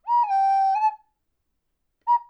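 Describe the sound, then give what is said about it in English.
A person whistles a signal, like a donkey calling a dragon: one long, clear high note held steady and dipping slightly at its end, then a pause and a short second note. “And Donkey, he said he'd whistle if he needs her. Donkey lets out a...”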